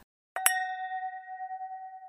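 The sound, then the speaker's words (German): Two quick clinks of wine glasses touching in a toast, followed by a clear, high ring that sustains and slowly fades, with no talking. “es ist unsere Tradition, dass wir immer erstmal anstoßen hier im Podcast.”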